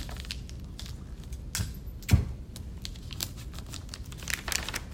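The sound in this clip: Adhesive tape is applied while a bag is folded and tucked at the corners: many quick crinkles and rustles, with one sharper snap of tape partway through and a brief tearing strip near the end.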